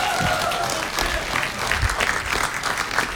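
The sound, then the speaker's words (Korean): A group applauds with dense, continuous clapping at a moderate level. A few sharper claps stand out near the middle and end, with no clear talk over it. “박수 박수 박수.”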